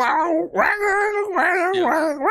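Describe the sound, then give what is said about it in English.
A human voice imitates cats screaming and meowing at night, with a few drawn-out, wailing yowls whose pitch bends and dips between them, loud and nasal. “just like blood curdling screams or meows of some weird type just to get you to wake up.”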